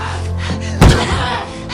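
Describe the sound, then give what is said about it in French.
A head is banged against the floor in a single loud, dull thud that cuts briefly above a steady background. “Iris tape la tête de Claudia contre le sol.”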